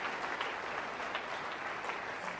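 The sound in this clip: A church audience applauds during a morning service, with soft, continuous clapping from many people that stays steady and even throughout and has no distinct voices.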